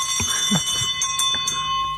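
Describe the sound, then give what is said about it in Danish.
Handbell rung by a chairman to open a meeting, rapid repeated strikes that ring with sustained metallic overtones, steady and fairly loud. “jeg synes, når nu det er en klokke, jeg har fået af dig, så skal den altså benyttes for fuld drøn, når du er her. Så ryster vi klokken.”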